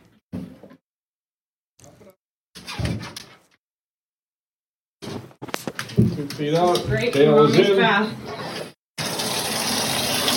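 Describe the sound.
Tap water runs for a dog's bath, a loud steady rushing that fills the second half after a few short, separate bursts of sound earlier on.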